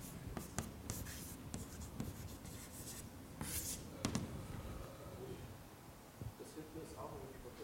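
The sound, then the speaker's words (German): Writing during a maths exercise makes faint, scratchy strokes in irregular bursts with brief taps and soft rubbing. The sound is quiet throughout, with faint talk in the background. “Habe ich falsch geschrieben.”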